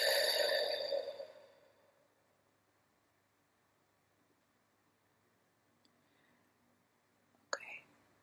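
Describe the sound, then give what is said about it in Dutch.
During a guided breathing exercise, a deep, breathy exhalation fades out over about a second and a half. A long hush follows, broken by a faint, brief sound near the end. “Ja, adem diep in. En weer uit.”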